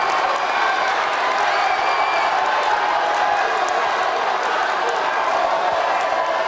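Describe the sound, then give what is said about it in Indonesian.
A crowd claps and cheers at a 2024 vice-presidential debate, a loud, continuous wash of applause and whoops that holds steady throughout. “silakan berikan apresiasi dan aplaus dulu deh. Biar semangat semua. Satu, dua, tiga, pendukung-pendukungnya silakan bersemangat memberikan apresiasi.”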